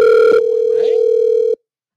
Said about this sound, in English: Hold on. We lost the goddamn call.